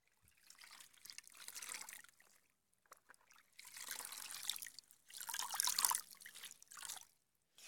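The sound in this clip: Water splashes and trickles as a mother washes a feverish young child lying down. The sound comes in several faint, irregular bursts separated by quiet gaps, with no voices.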